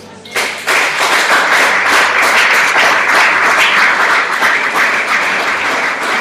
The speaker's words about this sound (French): Que quelqu'un dise Amen, Amen, Amen et acclame le Seigneur.